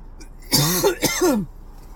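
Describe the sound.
Two rough, throaty coughs in quick succession, loud and alone, with no talk around them.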